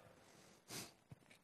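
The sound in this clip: A single quick nose blow makes a short, breathy, hissing burst that rises and fades within a fraction of a second. It stands out faintly against quiet background noise, with no talk over it.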